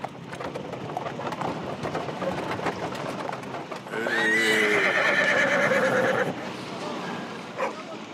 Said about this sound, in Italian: Una carrozza portò Fred all'ospedale americano